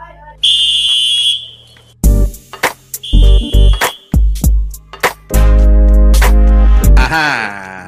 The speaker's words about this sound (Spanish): Pita ahí el medio tiempo.